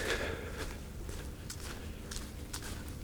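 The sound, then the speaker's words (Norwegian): Footsteps walk past Briskeby fire station in the middle of a mild January night, a few steady, faint steps over a low background rumble. “jeg har gått hjemmefra, og akkurat nå så passerer jeg Briskeby brannstasjon.”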